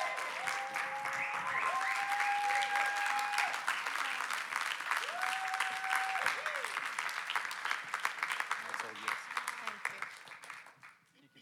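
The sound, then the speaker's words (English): A church audience applauds a guest speaker with steady, dense clapping that holds for about ten seconds and then thins out toward the end. “we could all just stand up and give our hands and welcome Sam Breedy as she comes to bring a testimony. We can do better than that.”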